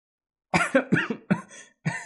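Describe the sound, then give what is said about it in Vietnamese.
Coughing from a young man who is coughing up blood: a few harsh, rough bursts in an uneven rhythm, each starting sharply and trailing off, with no talk. “một thiếu niên đang cười to, cũng ho ra máu, nhưng vẫn như cũ sáng lạng như vậy, máu rơi vãi mà phi phàm.”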